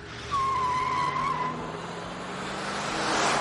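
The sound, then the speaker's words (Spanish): A car's tires squeal sharply over engine rumble as it reverses, circles a row of parked vehicles and drives off toward the exit. The squeal holds steady for about a second, and a lower, sustained engine drone continues afterward. “Manipula la palanca de cambios y da marcha atrás. Rodea una hilera de vehículos y conduce hacia la salida.”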